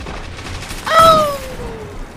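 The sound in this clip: A sniper rifle fires in a video game: one sharp burst, then a clear whistling tone that slowly falls in pitch and fades over about a second against a low steady background.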